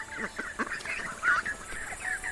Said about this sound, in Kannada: ಆಮೇಲೆ ಆ ಬಾತುಕೋಳಿಗಳ ಗ್ರೂಪ್ ಅಲ್ಲಿ ಬರುತ್ತೆ.